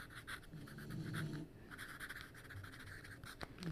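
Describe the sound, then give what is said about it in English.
A pencil writes on paper in faint, continuous scratching strokes with a soft, papery texture. “ASMR fucking pencil writing. Fucking writing is so cool”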